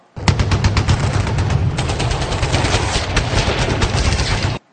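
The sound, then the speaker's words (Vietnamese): Gunfire from several shots fired nearby, a loud, rapid, unbroken volley of sharp cracks that runs through the whole clip with no voices. “Vừa lúc ấy có mấy phát súng nổ gần”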